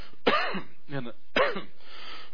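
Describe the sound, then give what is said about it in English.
A man coughs twice, each cough a short, harsh burst that rasps in the throat and trails into a fainter, voiced follow-through, with quiet gaps between them. “And I want to say that, yes, I'm coughing, because I really worked my lungs hard on Sunday.”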